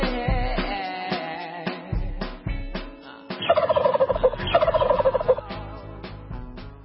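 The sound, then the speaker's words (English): A turkey gobbling sound effect: a few loud harmonic calls give way to rapid, warbling gobble trills in two bursts, with no talk. “The turkey sound means that Donovan is the first batter up to do this.”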